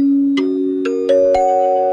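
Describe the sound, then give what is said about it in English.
A chime sounds four struck notes that step upward in pitch. Each bright strike rings on and overlaps the last, over a tone that is already sounding. “In fact, we have a chime right here.”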